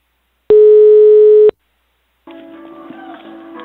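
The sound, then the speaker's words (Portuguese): A telephone line tone sounds as a call is placed, a single loud, steady beep lasting about one second. It is followed, after a short silent gap, by a quieter, uneven sound on the line. “Eu vou ligar pra Consuelo.”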